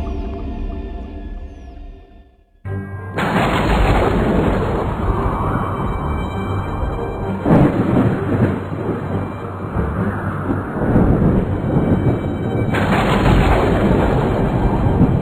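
Thunder from a storm rolls in after a brief quieter moment, becoming a loud, continuous low rumble with crackling bursts that swell again partway through and near the end.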